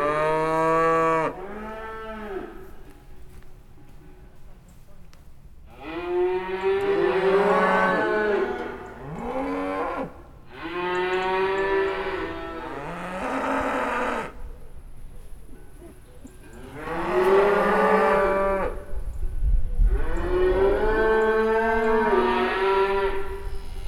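Cows moo again and again: loud, drawn-out bellows with rich harmonics, some overlapping, come in several bursts separated by short pauses.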